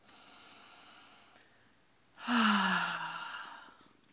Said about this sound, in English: it's always a good idea to take a deep breath. I'm gonna do it right now.